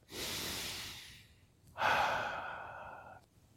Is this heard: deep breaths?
yes